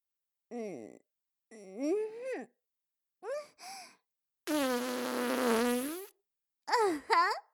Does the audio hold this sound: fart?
yes